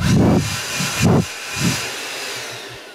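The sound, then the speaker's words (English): Rushing air from a blower, heard as a few broad, hissing bursts of roughly even strength with quieter gaps between them. No voices. “That sounds like a blower. He's got it, hasn't he?”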